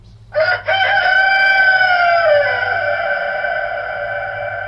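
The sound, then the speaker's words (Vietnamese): A rooster crows once as it perches on a man's shoulder with its neck stretched out. The single long, loud, clear crow lasts about four seconds, starts with a brief stutter and tails off slowly over a faint low hum. “bỗng nhiên con gà trống nổ tình, bay vụt ra từ trong bầy gà, đậu ngay trên vai lão, nghền cổ gáy vàng.”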